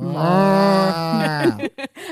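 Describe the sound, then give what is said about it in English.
A person imitates a cow mooing with one long, sustained, low voiced moo whose pitch drops slightly partway through, followed by a few short vocal bursts. “I can do a good cow though.”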